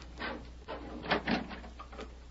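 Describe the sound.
A door is opened with a few muffled knocks and rattles over a steady low hum, with no voices during the movement.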